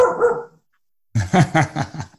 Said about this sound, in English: dog barking. That's what's next.